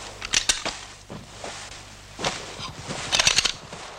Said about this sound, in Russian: Перезаряжает автомат. Осечка.